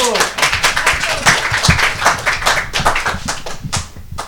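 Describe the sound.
Audience clapping at a talk about kindness after a volunteer's turn: dense, steady applause across the whole stretch, with a voice speaking over it.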